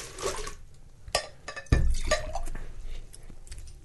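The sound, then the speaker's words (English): Water splashes and drips as beer glasses are rinsed, with a few light glassy clinks and one louder knock. The sounds are fairly faint and uneven, with quiet running water between them. “Let's rinse all of this tart tangy out of our glasses before we go on.”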